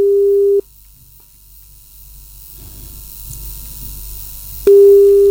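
Telephone ringback tone while a call connects: two loud, steady, mid-pitched tones, one short at the start and one at the end, separated by several seconds of faint hiss.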